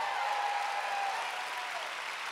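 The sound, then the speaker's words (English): An audience claps during a church service, a dense, steady wash of many hands that eases off slightly toward the end. “All right, remain standing. Let's give Jesus all the hand clap. Come on, everybody, he's wonderful.”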